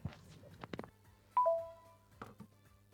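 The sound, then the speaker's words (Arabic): Telephone ringing: one brief electronic chime of two held pitched tones, faint and alone after a few soft clicks and knocks. “لحظة أنا ما أعرف هذا التليفون مين البلوك؟ البلوك مين؟”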